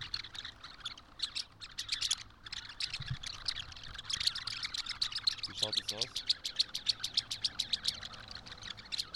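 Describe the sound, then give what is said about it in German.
A flock of starlings flies over a park, giving many rapid squawks and chirps in a steady, pulsing stream. The calls are fairly faint, with a low background rumble beneath them. “Dabei gebe ich euch ein kleines Soundbeispiel von den Staren, die gerade hier über den Walterpark fliegen.”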